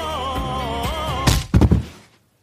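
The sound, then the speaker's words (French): A punch to the face lands as a sharp thud, followed by a quick cluster of heavy smacking impacts over a wavering tone, then everything cuts to silence. “Je frappe Florent Pagny au visage.”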